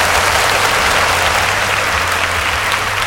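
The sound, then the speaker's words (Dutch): Dense, continuous applause from a crowd holds steady at the same level from start to finish, with no voices rising above it. “Ik geef ze allemaal een applausje. Allemaal een applausje.”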